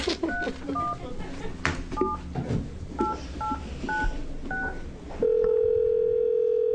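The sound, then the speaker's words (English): Touch-tone telephone dialing: a run of short, distinct keypad beeps sounds over background voices and room noise, followed by a loud, steady, continuous line tone. “then I need to get somebody on the phone”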